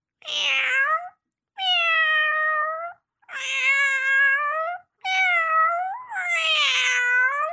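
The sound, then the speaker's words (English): A cat meows five times in a row, each call drawn out and bright, with short pauses between them. “Now, all of us know that cats, if you have a cat, a lot of times they sound like this.”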